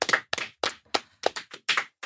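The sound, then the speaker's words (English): A sparse round of hand clapping from what sounds like only a few people: many sharp, separate claps in an uneven rhythm, with short gaps between them, and no voices. “Can I get a round of applause? Please.”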